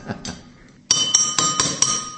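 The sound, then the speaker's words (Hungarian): Glasses of fizzy drink are tapped on the side to release carbon dioxide. A couple of faint taps come first, then a run of about five bright, ringing clinks with a sustained glassy tone. “Tehát gyakorlatilag elég jól bírják a poharak az ütögetést.”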